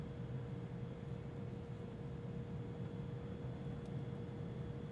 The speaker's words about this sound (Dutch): Hij zit in het vliegtuig naar Aruba.